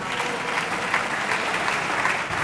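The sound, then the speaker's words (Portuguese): Applause from the benches supporting the government, the PSD and CDS, in the Portuguese parliament: a dense, even patter of many hands clapping, loud and sustained without pause. “Os aplausos são apenas das bancadas que apoiam o governo, o PSD e o CDS.”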